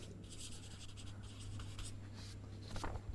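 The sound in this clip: Handwriting is heard as faint, scratchy pen strokes in short, irregular bursts, with the rustle of the tip moving across the page.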